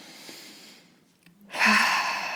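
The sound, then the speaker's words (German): A deep breath drawn in: after a faint, airy lead-in and a brief hush, a single soft, breathy hiss swells up and holds until the end. “atme vielleicht einfach mal ganz klassisch so dreimal richtig tief ein. Ja, ich mache das jetzt einfach mal.”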